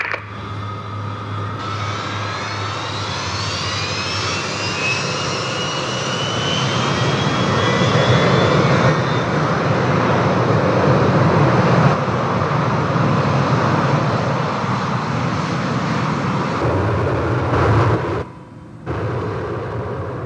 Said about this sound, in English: Flight attendants, take your seats. Passengers, please stow any carry-ons not in the overhead berths under your seats. Please check your seatbelts in preparation for takeoff.